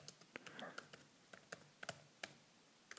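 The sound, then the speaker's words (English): Typing on a computer keyboard while entering a search term, many quiet, irregular key clicks with short gaps between small bursts. “I'm just typing in Google Scholar. Maybe we can get an updated 2015 metric. So we'll type in the search term evolutionary medicine.”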